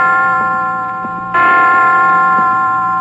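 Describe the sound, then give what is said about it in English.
Hospital chimes striking five o'clock ring out in loud, sustained bell tones, with a fresh strike entering midway and ringing on. “5 o'clock. I didn't know the hospital had chimes.”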